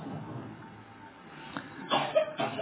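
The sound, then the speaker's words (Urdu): Someone with a severe cough lets out a few short coughs near the end, breaking through a low steady hiss. The coughs are faint, rough and close together. “ارے بھائی اس کو تو بہت کھانسی ہے، اس کو گھر میں آرام نہیں کرنا چاہیے؟”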